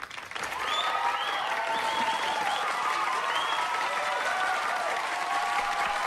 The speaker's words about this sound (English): clapping along with the rest of the audience